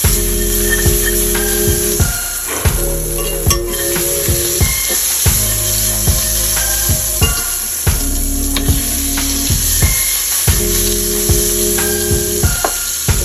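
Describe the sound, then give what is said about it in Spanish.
Half a stick of butter melting and sizzling in a pan with a drizzle of olive oil, a steady, loud hiss that runs without pause. “una pizca de aceite de oliva. Vamos a poner media barra de mantequilla a derretir.”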